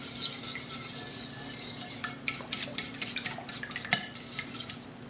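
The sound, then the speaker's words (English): Stirring maple syrup into milk, a spoon working through the liquid with faint, irregular scraping and light clinks against the container, quiet throughout. “And by mixing it really well, you're also gonna make sure that the maple syrup incorporates into the milk.”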